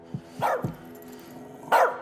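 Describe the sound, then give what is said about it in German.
A pet dog barks in a few short, sharp bursts, with two quick barks close together early on and a louder bark after a pause near the end, heard alone without talk. “Du, stell den Hund ruhig.”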